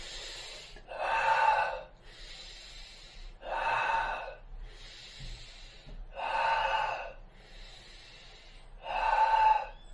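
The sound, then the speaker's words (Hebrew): Slow, deliberate breathing in and out through the nose during a guided breathing exercise, about eight breaths that alternate between softer airy ones and stronger, more resonant ones, with no talk. “ננשום וננשוף דרך האף, אבל בצורה מעגלית. זאת אומרת, שאיפה דרך האף.”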